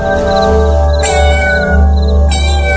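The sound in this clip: A small, frightened cat held in a lap meows in loud, drawn-out, harmonic cries that run almost continuously, with a couple of brief breaks in the voice, and no talking.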